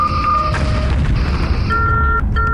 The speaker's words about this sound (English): Solution received. Firing all phasers.